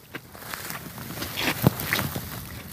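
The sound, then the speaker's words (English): Footsteps on a lowland peat bog on a spring day: several soft, irregular steps, fairly quiet, with no talk over them. “I'm just out for a walk on one of our lowland peat bogs.”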